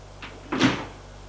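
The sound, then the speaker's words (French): A door is opened: a faint short sound comes first, then a louder, brief rushing scrape that quickly fades, with nothing else heard around it. “Il ouvre une porte.”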